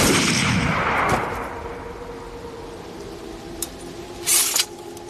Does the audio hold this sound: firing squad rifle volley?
yes

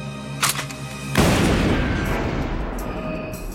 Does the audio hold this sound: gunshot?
yes

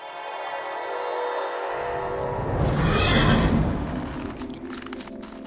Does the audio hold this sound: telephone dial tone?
no

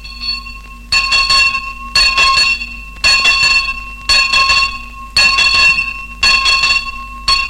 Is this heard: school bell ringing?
yes

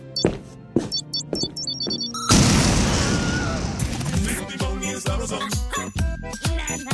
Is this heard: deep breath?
no

